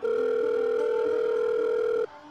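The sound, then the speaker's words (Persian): A telephone dial tone plays while a number is being called. The steady, even hum lasts about two seconds, then cuts off abruptly. “با جیغ و فریادهای خیابان از خواب پریدم و بیدرنگ شماره مادر را گرفتم.”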